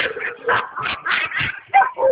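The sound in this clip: A pack of dogs barks and yips in rapid, repeated bursts, the mid-pitched calls overlapping almost without pause throughout.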